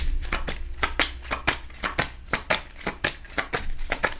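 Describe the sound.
Tarot cards being shuffled by hand, a rapid run of many crisp papery slaps and riffles in a fairly even rhythm, moderately quiet and without any talk.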